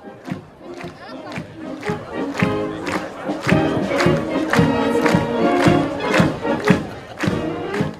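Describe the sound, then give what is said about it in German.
Crowd noise at a district music festival (Bezirksmusikfest) in the region near Gampel: a dense, steady din of many voices with bursts of cheering that stays loud throughout. “Das ist der Ton von diesem Wochenende. Häufig Bezirksmusikfest läuft und in der Region neben Gampel ist euch das heute ziemlich etwas los.”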